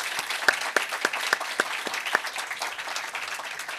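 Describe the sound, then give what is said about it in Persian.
Audience applause for a young tanbur player: steady, dense clapping with a few sharper individual claps standing out, holding fairly even before easing slightly at the end. “واقعا از نوازنده جوان و تنبور نوازمون جناب آقای مهران چناخچی هم به همون قدری که لذت بردین یک بار دیگه تشویق کنین”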